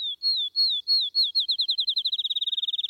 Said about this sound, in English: Wilson, I believe, calls him the grass finch